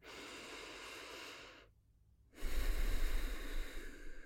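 Deep breathing during a guided body warm-up: a long, soft, airy inhale, a short pause, then a stronger, rushing exhale. Heard alone.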